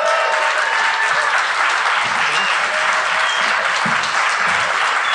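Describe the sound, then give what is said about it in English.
An audience bursts into sustained, dense applause for stand-up comedian Mike Lawrence, a loud, even wash of clapping that holds steady throughout. “Mike Lawrence, everybody. Let's hear it from Mike.”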